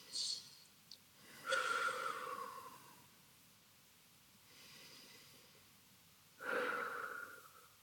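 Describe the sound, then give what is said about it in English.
Deep breathing during a face-tapping relaxation exercise: a few slow, soft breaths with long airy draws and releases, separated by quiet pauses, faint and unhurried with no talking. “Taking some deep breaths as we tap through.”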